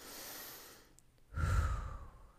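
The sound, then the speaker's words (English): A deep breath taken during a singing and ballet barre warm-up, starting as a soft airy hiss, then swelling into a fuller, louder breathy rush that slowly fades. “Let's take a nice breath.”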